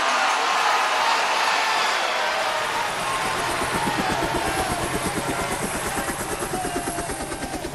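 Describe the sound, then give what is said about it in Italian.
A helicopter flies away carrying the pope after his resignation: a loud, broad rotor roar whose rhythmic blade thumping grows clearer toward the end as the overall level slowly drops. “il Papa dimesso, si allontana in elicottero”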